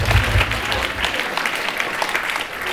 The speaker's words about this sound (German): Ja, das darf auch mal applaudiert werden.